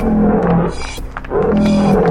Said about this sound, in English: Sensing victory, the lions roared.